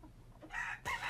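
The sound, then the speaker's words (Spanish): Chickens cluck in a brief, faint pair of quick calls, the second slightly stronger, heard alone without talk. “debe ser ya muy evidente qué tipo de animal involucra. Em, son pollos.”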